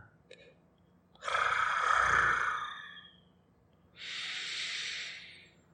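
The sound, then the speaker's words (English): Two long, breathy inhalations from a human voice acting as a cat drawing in a scent. The first is louder and longer, the second quieter and airier, with no words around them. “Just inhaling your aroma.”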